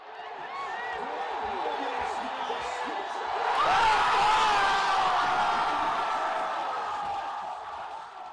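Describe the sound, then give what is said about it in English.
A crowd cheers the Washington Nationals' National League pennant win, a broad roar of voices and whoops that swells to a louder peak midway before settling back, with shouting mixed through it. “That was the sound of victory, specifically victory in the National League pennant for the Washington Nationals, sending them to the World Series for the first time in the recent history of their franchise.”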